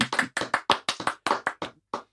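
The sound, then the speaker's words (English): Applause from a crowd rising to its feet in a standing ovation: a steady run of about a dozen sharp hand claps over two seconds, each with a short ringing tail, with no voices. “The crowd rises to its feet.”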